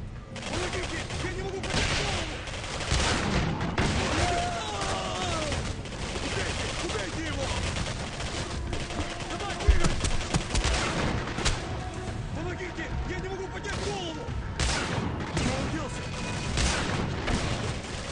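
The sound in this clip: Video-game gunfire and a grenade blast: dense, almost unbroken volleys of shots and booms crackle throughout, with one sharper, louder burst near the middle, while voices talk over the action.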